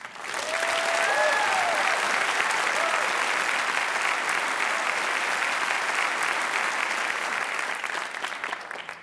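An audience applauds to welcome a hometown guitar quartet of four teenage players from Chattanooga, with loud, continuous clapping and a brief whistle early on, holding steady throughout.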